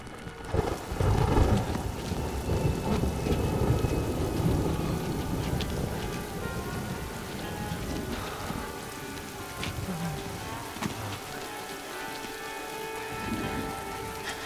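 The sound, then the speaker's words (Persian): A sudden, heavy downpour of rain, a dense and steady hiss of drops striking surfaces, with deep rumbles of thunder rolling underneath through much of the stretch. “فقط یه رگباره، اونا دیگه رسیدن، این بارون هم زود تموم میشه.”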